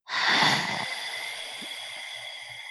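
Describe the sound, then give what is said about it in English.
Voice imitating the eerie sigh of a moving orange flower bloom: one long, breathy exhale that starts loud and slowly trails off in a hushed, airy hiss. “it lets out the eeriest, like it's not even a shriek. It's almost like a sigh”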